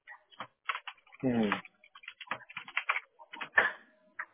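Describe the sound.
Irregular keystrokes clatter on a computer keyboard as a search for bathroom remodeling companies is typed, with quick uneven clicks and a brief voice-like sound partway through.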